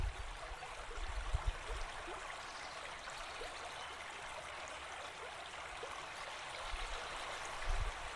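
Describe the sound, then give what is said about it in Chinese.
A river runs beside a dam at dusk, with a steady, soft rush of water flowing throughout and a few faint low thumps. No voices are heard. “我们现在在这个河的旁边的坝上”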